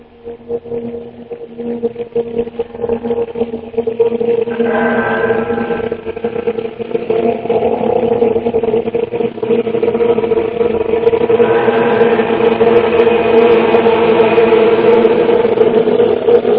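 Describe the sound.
A car engine runs steadily with the car stationary or just setting off, a low, even drone with a constant hum that swells slightly fuller in the second half, and no talking.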